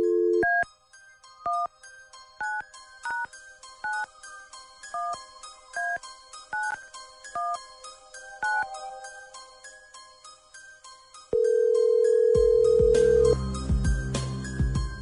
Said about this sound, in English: Then here we go. Dialing at random.